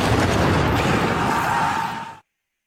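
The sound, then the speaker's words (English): A mortar shell bursting during the opening Civil War bombardment of Fort Sumter, fired from Fort Johnson. It comes across as a dense, loud roaring rumble that holds steady for about two seconds, then cuts off abruptly into silence. “the first mortar shell arced high from Fort Johnson and burst above Sumter like a signal flare from hell.”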